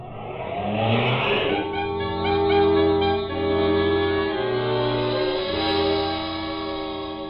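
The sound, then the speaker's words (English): A car drives off in a hurry, its engine revving loudly as it pulls away, the engine note shifting in steps as it speeds up, with no talk. “Jackie, Sammy, and the driver drove out of there in a hurry”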